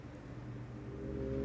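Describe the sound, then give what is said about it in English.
A naturally aspirated Porsche 4-litre Cup flat-six engine, rated at just over 500 horsepower, hums in a steady, deep drone with layered low harmonic tones, gradually growing louder. “That is the 4-litre Cup engine, producing just over 500 horsepower. Normally aspirated flat six. And a thing of beauty”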